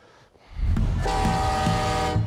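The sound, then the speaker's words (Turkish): A train at a station: low rumble swells in after half a second, then a loud, sustained horn tone sounds over it through to the end. “Vasilya da Amanda ve Kenny eve giden trene binmek için zamanında istasyona geldiler.”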